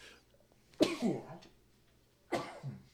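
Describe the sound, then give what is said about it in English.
Two abrupt sneezes from a person, each a sharp, explosive burst followed by a short voiced tail, about a second and a half apart, with quiet between them. “I have to sneeze.”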